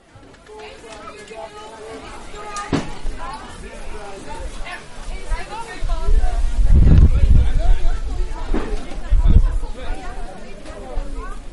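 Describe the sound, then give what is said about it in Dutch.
Chatter from a busy Saturday market crowd: a dense babble of many overlapping voices that grows louder partway through and stays lively to the end. “Tomaten, 2 euro. Dat is de zaterdagmarkt.”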